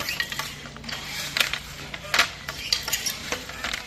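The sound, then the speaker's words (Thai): A traditional Thai throw-shuttle floor loom (kee kratob), used by a community weaving group in Pattani, clacks as cloth is woven: many light wooden knocks and clicks repeat in a loose rhythm at a soft, even level. “เสียงกระทบของกี่ทอผ้าดังเป็นจังหวะสะท้อนเรื่องราวของภูมิปัญญาที่สืบทอดจากรุ่นสู่รุ่น”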